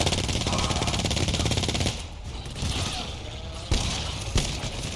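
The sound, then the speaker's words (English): Gunfire in a video game: a dense, rapid stream of automatic shots that later thins into scattered bursts, with a couple of sharp louder cracks near the end. “Y'all start shooting like that, teammate.”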